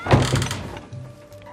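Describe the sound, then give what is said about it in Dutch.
A rickety wooden plank door opening into a dim hut, with a dull knocking thud and rattle at the start, then softer scraping and a faint creak that fade out, with no voices. “doet een gammele planken deur open en komt in zijn eentje een schemerdonkere hut binnen.”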